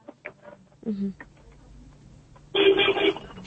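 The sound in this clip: A telephone rings for a listener's incoming call: one bright, buzzing ring burst lasting about half a second, arriving late after a few short, quiet noises.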